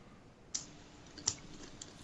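A computer mouse being right-clicked: two crisp, sharp clicks spaced under a second apart, then a fainter third click over a quiet background hum.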